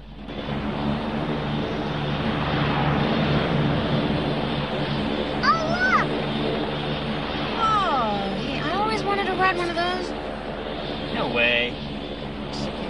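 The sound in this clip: A steady airplane engine drone inside the cabin of a plane, a continuous low hum filling the whole stretch. Short voices rise over it in the second half.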